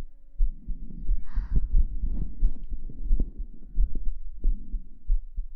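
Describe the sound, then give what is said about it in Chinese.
A slow, calm heartbeat: soft, low, muffled thumps in a steady, unhurried rhythm, over a faint hum. “心跳好平缓啊，”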